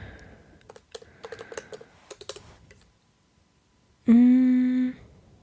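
Fast typing on a computer keyboard while searching Google: many quick, irregular clicking keystrokes for about two and a half seconds, then the typing stops.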